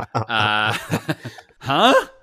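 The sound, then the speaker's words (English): Throat clearing, put on to sound flabbergasted: a few rough, voiced bursts and a drawn-out gravelly hum, loud and close, with a final wavering grunt. “Okay, I cleared my throat to be flabbergasted appropriately.”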